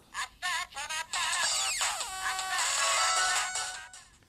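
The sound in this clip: A phone ringtone sounds for a long-awaited incoming call. It opens with a few short electronic notes, then settles into a steady, bright, continuous melody.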